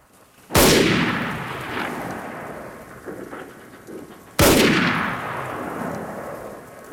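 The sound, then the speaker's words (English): Two gunshots fired at a distant target by a shooter lying in long grass, each a loud, sharp crack followed by a long rumbling decay, spaced about four seconds apart, with no voices. “sets his sights on a target in the distance and fires off a couple of rounds.”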